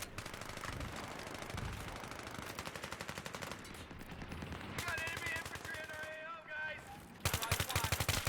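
Automatic weapon fire in a video game, from a gun the player finds weak: sustained, rapid bursts of shots run throughout, turning louder and harsher near the end.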